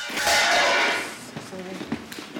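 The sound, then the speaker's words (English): Metallic crash of a tray of medical instruments dropped on the floor: a loud, sustained clatter lasting about a second, followed by a few quieter, scattered clinks and rattles as the pieces settle. “A nurse drops a tray of instruments near Sasha.”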